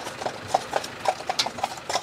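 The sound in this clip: Horses pulling a carriage on the island of Hiddensee clip-clop along, their hooves knocking in many quick, uneven beats over a steady low rumble of the moving wagon, with no voices.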